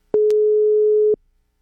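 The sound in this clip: Telephone busy signal on a call that goes unanswered: one steady mid-pitched tone lasting about a second, with short clicks at its start and end and nothing else around it.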